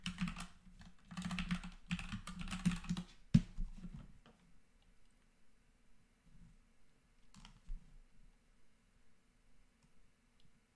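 Typing on a computer keyboard: rapid, uneven clicking and tapping for about four seconds, then mostly quiet with a few faint, scattered clicks.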